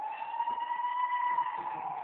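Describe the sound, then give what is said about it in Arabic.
An ambulance siren sounds alone as a steady, high, wailing tone with bright overtones, its pitch wavering slightly and its loudness holding even throughout. “غير ندخل في مسألة شائكة تجي الإسعاف”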